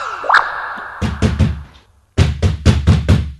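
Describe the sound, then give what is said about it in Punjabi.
Knocking on a locked bathroom door: three solid thumping knocks, a brief pause, then five more knocks in quick succession, loud and with no voices. “Daddy bathroom ਦਾ ਦਰਵਾਜ਼ਾ ਕਿਉਂ ਖੜਕਾ ਰਹੇ ਨੇ”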